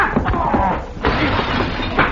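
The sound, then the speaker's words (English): A plate glass mirror shatters during a fistfight, producing a loud, dense crash of crunching, clattering noise that fills the whole moment, with a sharper burst about midway. “There goes my plate glass mirror.”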